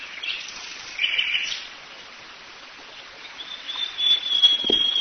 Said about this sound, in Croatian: Padam u iskušenje da odmah završim, moje ptice mnogo ljepše pjevaju nego što ja pričam.